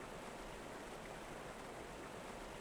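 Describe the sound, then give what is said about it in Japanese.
A babbling stream of clear water makes a steady, continuous soft rush and wash, with no voices. “せせらぎの音が心地いいね。”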